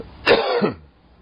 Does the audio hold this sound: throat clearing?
yes

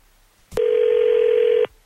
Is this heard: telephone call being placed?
yes

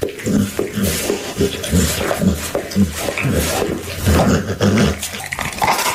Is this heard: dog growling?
yes

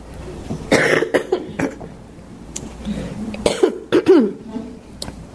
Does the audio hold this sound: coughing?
yes

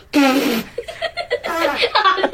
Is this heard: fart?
yes

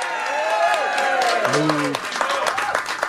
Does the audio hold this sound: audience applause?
yes

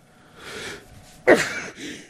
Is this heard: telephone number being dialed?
no

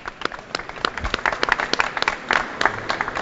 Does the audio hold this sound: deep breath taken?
no

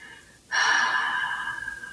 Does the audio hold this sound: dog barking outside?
no

